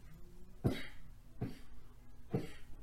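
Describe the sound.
Three sharp, separate coughs from a sudden tickle in the throat, fairly quiet and evenly spaced, with no talking between them.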